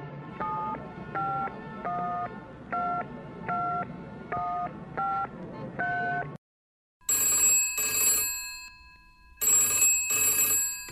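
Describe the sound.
Telephone ringing on a call to an office, preceded by a quick run of keypad dialing tones. After a short silence come two loud, bright double rings, with no voices.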